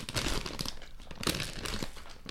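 Crinkling and tearing of the plastic wrapper on vegan fruit-flavored jellies as it is torn open: continuous crackly rustling with a few sharper bursts of crunching, no voices.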